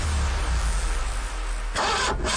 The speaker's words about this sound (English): car won't start